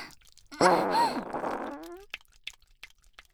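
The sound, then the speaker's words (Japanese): A fart: one long, buzzy, tonal blast lasting about a second and a half, loud at the start and trailing off. Faint scattered rustles follow. “はーい、新鮮なおならをどうぞ。”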